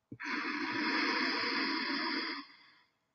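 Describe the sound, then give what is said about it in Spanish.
A long, deep exhale through the nose during a guided breathing exercise: a steady, airy rush that lasts over two seconds before tapering off softly. “Inhala largo y profundo por la nariz y exhala largo y profundo por la nariz.”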